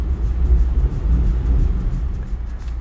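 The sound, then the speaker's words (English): Machinery of an automatic car wash runs around a car, giving a heavy, steady low rumble that pulses slightly, with a faint hiss above it. “I do apologize for the noise. I'm inside of the car wash.”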